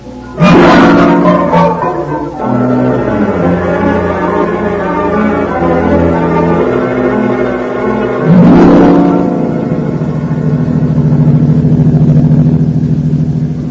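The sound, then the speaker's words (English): A car engine roars as the car drives fast through fog. The tone is loud, steady and rich in harmonics, with its pitch surging upward twice, once at the start and again about two-thirds of the way through. “Can't you drive just a little faster”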